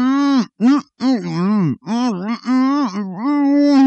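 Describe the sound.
Muffled groaning from a gagged man, a radio breakfast presenter, in loud voiced moans whose pitch wavers up and down across several bursts separated by short gaps.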